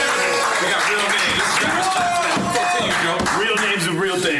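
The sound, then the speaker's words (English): Audience applause at a stand-up comedy show: a dense, steady roar of clapping with cheering voices mixed in, loud and unbroken from start to finish. “Let's clap for the goddamn real name.”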